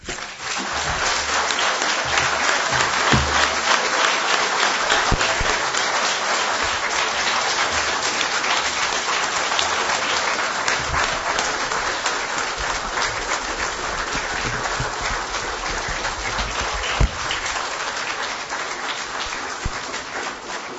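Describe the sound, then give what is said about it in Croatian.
Audience applause from a crowd of many people: a steady, full wash of clapping that holds at an even level throughout. “Zamolit ću vas još jednim aplauzom, pozdravimo ovu hrabru ženu.”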